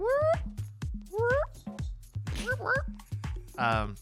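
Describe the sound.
A cat meow sound effect plays several times, each a bright, wavering, high-pitched mew, with people talking underneath.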